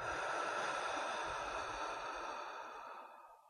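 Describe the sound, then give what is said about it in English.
A deep breath in through the nose and out through the mouth: one long, steady breathy rush that slowly fades toward the end, with no talk. “Let's take a deep breath in through the nose and out through the mouth.”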